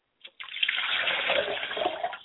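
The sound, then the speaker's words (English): Water is poured into a glass in a steady splashing stream. A brief first splash is followed by about two seconds of even, moderately quiet flow. “I like to pour a glass of water for my father, and I say, Father, drink well from the spring of life.”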